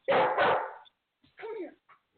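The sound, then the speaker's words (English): Barks from a dog eager to play catch: first a loud, rough double bark, then a short pause, then a softer, higher bark and a brief faint yip. “why does my dog want to play catch right now?”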